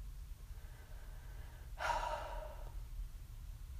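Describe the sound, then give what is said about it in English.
A single deep breath: a soft, airy inhale lasting about a second, heard alone over a low, steady background hum. “Pause. Take a breath.”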